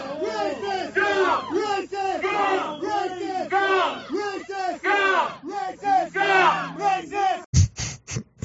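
A crowd of protesters shouting slogans in unison, the same phrase repeated over and over in a loud, rhythmic chant, ending with a few sharp knocks.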